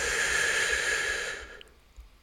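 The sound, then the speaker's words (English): One long, soft breath forms a breathy hiss that fades away after about a second and a half. It is part of a slow exercise of breathing in through the mouth and out through the nose. “Again, in through the mouth and out through the nose.”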